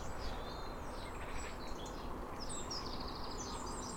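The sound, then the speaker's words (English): Sparrows chirping by a canal marina, faint high chirps scattered throughout over a steady background hiss. “Oh, let's keep an ear out. Just some sparrows here.”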